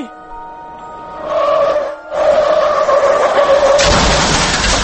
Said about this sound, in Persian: دقیقا با همین سرعت که شنیدید این ماشین رفت، یعنی پاشو گذاشته بود رو گاز داشت می رفت